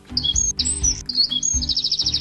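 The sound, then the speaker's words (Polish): A wren sings in bright, high chirps and quick whistled phrases broken by short gaps, ending in a rapid run of repeated notes. “To jest strzyżyk, tak? Strzyżyk.”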